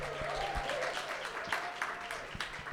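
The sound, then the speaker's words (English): An audience applauds and cheers for a band's third studio album with faint, steady clapping. A few sharper individual claps stand out near the end. “Let's make some noise”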